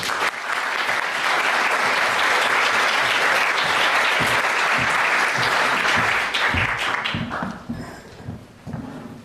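Loud, sustained applause from a lecture audience welcoming a professor to deliver a memorial lecture. The dense clapping tapers at the end into a few scattered claps.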